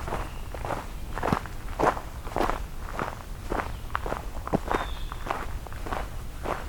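Footsteps of a hiker walking along a trail, a steady rhythm of many crunching steps at a moderate pace that stays even throughout.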